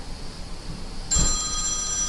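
A telephone rings with a steady electronic tone that starts abruptly partway through and holds over a hissy background.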